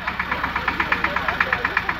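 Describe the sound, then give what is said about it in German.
A tractor engine chugs as it rolls up at an outdoor theatre performance on a farm estate, with a loud, rapid, evenly spaced knocking pulse over a low, steady drone. “Hier rollt dann erst der Trecker an, der immer mitspielt auf dem Hermannshof”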